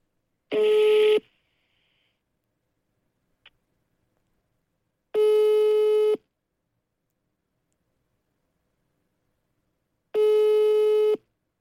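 Ringback tone of an outgoing telephone call that goes unanswered: three long, steady electronic tones about five seconds apart, with a single faint click between the first two. The tones sit in silence, with no talk.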